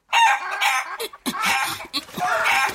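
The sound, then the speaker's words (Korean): A chicken squawks harshly as it struggles, held with its legs kicking and its neck dangling in the air. The loud, strained cries come in a few long stretches separated by brief breaks. “닭의 다리 근육이 버둥거렸다. 바깥으로 뻗대는 닭털은 따뜻했다. 닭의 목이 허공에서 까닥거렸다.”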